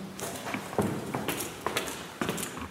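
Footsteps of people walking through a Gymnasium school building rather than taking the lift, a run of many soft, uneven taps over a faint background hiss.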